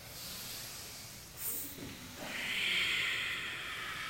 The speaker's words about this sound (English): Listen to the strength and fire of those around you with their intentional breath.